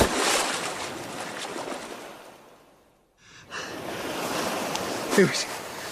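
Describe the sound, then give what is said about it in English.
Seawater washes and surges as someone swims through the sea toward an island. The broad watery hiss fades almost to silence midway, then returns with a brief breathy sound near the end. “Right, according to my secret map, that's the island over there. Oh, that's a long swim. That's got to be about 50 lengths of the Ottery St. Mary Leisure Centre baths. Maybe more. Here goes!”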